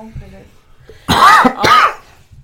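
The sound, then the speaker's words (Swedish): A person gives two loud, harsh coughs in quick succession after a stretch of quieter sound. “Ursäkta att jag hostade förresten. Nu var det väldigt så här, det kanske lät illa, förlåt.”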